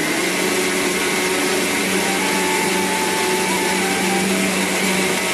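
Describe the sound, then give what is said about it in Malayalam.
A mixer grinder grinds roasted spices and fennel with a little water into a paste. A loud, steady high-pitched whir over a constant motor hum runs unbroken throughout, with no voices. “അതിനുശേഷം ഇത് നല്ല രീതിയിലൊന്ന് പേസ്റ്റാക്കി അരച്ചെടുക്കുക കേട്ടോ. ആദ്യമേ ഇത് നമ്മൾ നന്നായിട്ടൊന്ന് പൊടിച്ചെടുത്തതിന് ശേഷം കുറച്ച് മാത്രം വെള്ളം ചേർത്തിട്ടൊന്ന് അരച്ചെടുത്താൽ മതിയാകും കേട്ടോ.”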